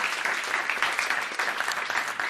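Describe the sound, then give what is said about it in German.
Audience applause as two volunteers are called forward from the crowd at a live stage show; dense, steady clapping fills the whole stretch at an even, fairly loud level. “Kommen Sie doch mal bitte vor und bringen Sie den Herrn eine Reihe weiter voran mit einem Applaus für die zwei.”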